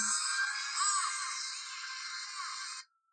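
A mobile phone ringtone plays a theme song recorded from a cartoon montage: a bright, busy melodic tune that runs steadily for nearly three seconds, then cuts off abruptly, with no talk.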